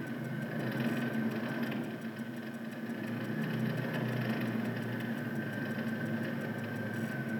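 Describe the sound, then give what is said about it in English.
A motorized pedicab riding through the village of Sitio Paglao: a steady, even engine drone with a constant mid-pitched hum and no voices. “So we now are riding in the pedicab through the village of Sitio Paglao.”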